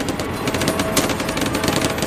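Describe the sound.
Machine gun fire in a war video game with tanks and infantry: a loud, continuous rapid rattle of shots, dense and unbroken throughout.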